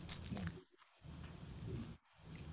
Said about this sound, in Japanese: あパリパリですねこのサイズのお海苔が入ってますこれちょっとお行儀悪いですけどいただいていいですか